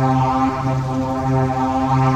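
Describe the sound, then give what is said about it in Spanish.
A siren calling: a low, steady, droning horn tone rich in harmonics, sustained evenly for about two seconds with no voices. “La sirena llamó.”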